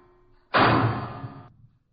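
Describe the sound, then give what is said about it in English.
A heavy bulkhead door on a ship slams shut with one sudden loud bang. A ringing tail fades over about a second, then there is silence. “The bulkhead door slammed shut behind us.”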